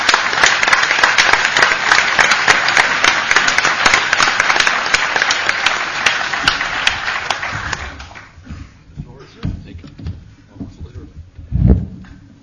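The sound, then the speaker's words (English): Audience applause welcoming a speaker at the LSE: dense, steady clapping from a crowd for about eight seconds, then thinning and dying away into faint rustling, with a single low thud near the end. “a round of applause for going through this week in London and turning up here”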